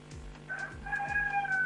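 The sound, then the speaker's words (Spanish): A rooster crowing, one drawn-out, fairly faint cock-a-doodle-doo with a wavering high-pitched tone that holds through to the end. “Se escucha un gallo ahí, me distraje.”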